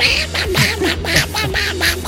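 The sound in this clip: A man's voice imitating a cartoon duck's quacking: a rapid string of squawky, nasal, buzzing bursts with short gaps between them, loud and without other talk.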